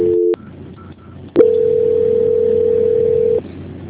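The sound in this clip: Telephone tones during a bank call being transferred while the caller holds: a brief steady tone, a short gap, then a longer steady single-pitched tone of about two seconds, with no talking.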